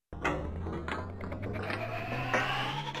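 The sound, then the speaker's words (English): Steady mechanical whirring and rumbling from a pretend sugar extractor machine processing fruit, a sound effect that holds an even, busy drone with a low hum throughout. “We're going to put two different fruits in our sugar extractor machine.”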